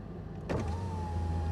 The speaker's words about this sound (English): Mr. Goldberg starts driving.